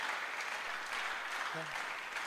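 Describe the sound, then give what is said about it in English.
Faint, steady clapping from an audience during a church sermon, with a brief voice rising over it near the end. “Are you clapping for Jesus? Oh, are you clapping for Jesus?”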